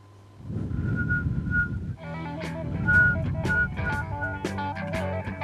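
Someone whistles a clear, fairly high melodic tune, the notes steadily changing pitch, over a low rumbling background.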